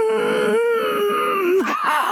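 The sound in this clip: A voice imitates the strained groan of someone lifting weights at a gym, a single sustained, wavering vocal tone that holds steady before dipping and breaking near the end.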